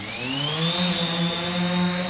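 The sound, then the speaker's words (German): Steady buzzing whine of a multicopter drone flying inside a cage in a university courtyard, circling the tip of a rotor blade standing on the ground. The whine is loud, continuous and harmonic, with its pitch edging slightly upward early on. No voices. “In einem Käfig im Innenhof der Hochschule Hannover steuert der Ingenieur Manuel Scherlis eine Drohne.”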